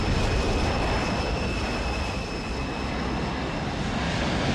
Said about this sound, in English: A white plane with red stripes along the windows turns. The plane straightens over the clouds.